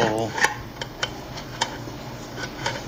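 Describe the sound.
Sharp metallic clicks and ticks come as a tool works into the sealed lid of a can to pry it open. Many irregular, brittle snaps sound over a low hum, with a brief voice at the start.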